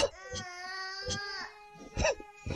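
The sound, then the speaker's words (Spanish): Young children detained with an adult cry and wail. A few high, tremulous sobbing bursts rise and fade in turn, and a faint babbling voice sits between them. “que paren de llorar”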